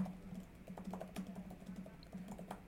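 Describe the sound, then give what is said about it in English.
Typing on a computer keyboard: many soft, quick key taps in an uneven patter, faint and continuous throughout. “Hold on one second. I'm going to type this.”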